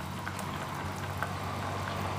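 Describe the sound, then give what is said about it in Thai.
Pork leg simmering in a pot with chamuang leaves, fish sauce and sugar: a steady, even bubbling with small scattered pops throughout, alone without talk. “ระหว่างที่เรารอขาหมูต้มใบชะมวงนุ่มให้ใบชะมวงทำงานเนี่ยนะคะ”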